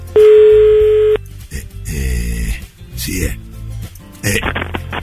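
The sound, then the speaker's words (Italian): A telephone dial tone sounds steadily for about a second at the start of a call being placed, then voices talk over a background of mixed noise. “fai pure il numero”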